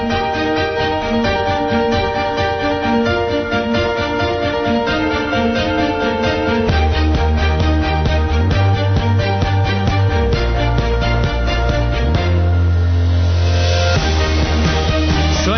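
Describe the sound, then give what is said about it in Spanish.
Theme tune for a Spanish radio station's sports games coverage, a loud, continuous, full-band piece of music with a dense, steady beat and a heavier bass section partway through, playing without talk. “ahora la sintonía de los juegos de la SER que suena así de bien.”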